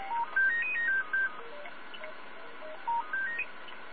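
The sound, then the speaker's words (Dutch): A telephone rings with an electronic ringtone of short beeping tones that step upward in a quick melody. The tones play over a steady background and start again near the end, with no talking. “Dat is een telefoon. Die zal ik eventjes wegdrukken.”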